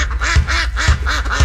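Waterfowl calling at a bird refuge in spring: rapid, rhythmic nasal quacks of ducks, loud and repeated several times in quick succession, with no voices.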